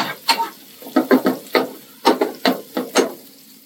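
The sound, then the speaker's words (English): Garlic and vodka sauté in a pan for penne alla vodka, with a spoon stirring and scraping in many short, rhythmic strokes over a faint sizzle. “We'll let it sear around a little bit. And we're gonna go with the vodka. And then the vodka. About, you know, a minute or two, saute it.”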